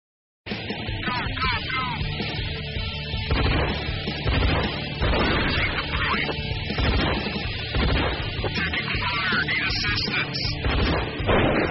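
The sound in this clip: Gunfire in an online shooting video game: many sharp shots and booming bursts follow one another without pause in a dense, loud, continuous barrage.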